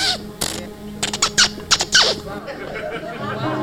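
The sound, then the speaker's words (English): Sparrow chirping: a quick series of short, high chirps clustered together, each brief and sharp, over a faint low background. “that is the sound of the sparrow.”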